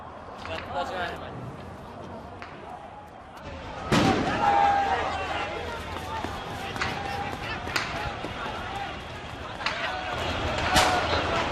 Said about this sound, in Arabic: حالياً ساحة الوثب هذا رصاص حي